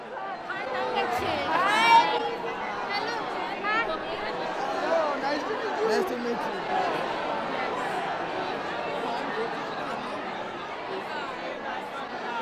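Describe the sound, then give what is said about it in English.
About 152 young people greet each other on the first day of a youth cricket tournament in India, a lively babble of many overlapping voices that stays at a fairly even, moderate level throughout. “My name's Hester, and this is the sound of 152 young people saying hello to each other.”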